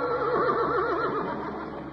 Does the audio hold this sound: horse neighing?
yes